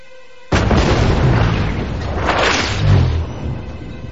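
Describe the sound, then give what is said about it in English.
A warship's cannons fire: a sudden loud boom breaks a brief quiet, then a long, rough roar follows with a second swelling blast before it eases off slightly. “Suddenly, they fire their cannons.”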